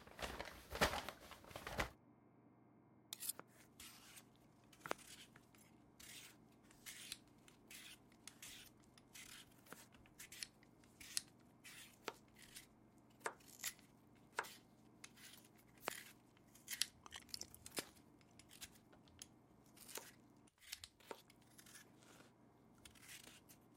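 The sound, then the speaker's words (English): Vegetables chopped with a knife on a cutting board: many sharp, crisp taps in an uneven rhythm, fairly faint and heard alone without talk. “Well, then let's chop some veggies.”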